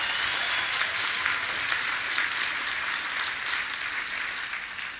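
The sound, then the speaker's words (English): Steady, dense audience applause during a political speech about a healthcare bill: many hands clap continuously and evenly throughout, easing slightly at the very end, with no voices standing out. “was that Roger Ailes applauding out there?”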